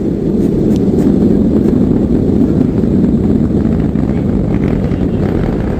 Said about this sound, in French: Vite, vite, vite, on retourne dans la machine. Allez. Et la machine, elle démarre. On remonte.